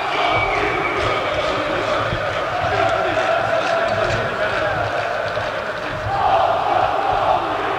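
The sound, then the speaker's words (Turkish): A crowd chants loudly in unison in a parliament general assembly, with many voices sustained and overlapping and a surge in volume near the end. “Arkadaşlar bu devam ettiği sürece genel kurula ara veriyoruz. Biz içeri geçiyoruz. Siz devam edin tezahürat yapmaya.”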